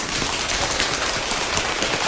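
Rain imitated by a group rubbing and tapping hands, part of a rain and wind game: a dense, steady patter and hiss spread across all pitches, loud and even, with no voices.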